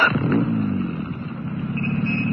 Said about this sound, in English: Start the motor